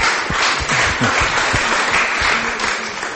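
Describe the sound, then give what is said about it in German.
Dense applause from a church audience clapping in praise of Jesus during a bilingual English and German service. The clapping is fairly loud and continuous throughout. “Let's give Jesus praise, everyone. Lass uns klatschen für Jesus.”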